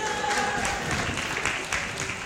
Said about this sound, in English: round of applause for our volunteers.